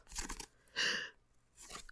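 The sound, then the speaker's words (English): Pink tissue paper crinkles and rustles as a package is unwrapped, in three soft, crackly bursts separated by short pauses. “So I guess right off the bat we got pink tissue paper.”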